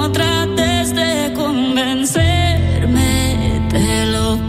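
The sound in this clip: A newly released song plays loud and continuous, with a melodic, wavering lead voice over sustained chords; after a brief break just before the midpoint, a heavier low end comes in and carries on to the end.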